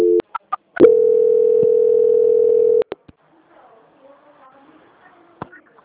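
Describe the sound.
A telephone call-transfer tone: a few sharp clicks, then a steady, loud, mid-pitched tone for about two seconds that cuts off with more clicks. Faint, muffled line sounds follow.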